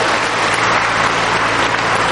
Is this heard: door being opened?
no